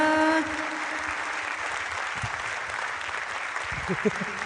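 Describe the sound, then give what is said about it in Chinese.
Audience applause for a stage performer who has just thanked the crowd, a steady, even patter of clapping throughout with a brief voice at the start and a few low murmurs beneath. “今天拍拍点都少咧， 真正就少。”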